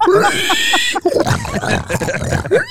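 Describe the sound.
A person uses their voice to imitate a pig, making loud, rhythmic nasal grunts and snorts with a couple of squealing upward slides.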